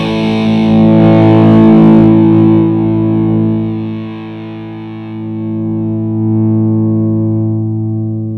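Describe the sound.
Distorted electric guitar played through a JAM multipedal with its tone knob being turned: a sustained, heavily driven chord rings out, its bright top end darkens and the level dips, then the tone swells back with fuller low end.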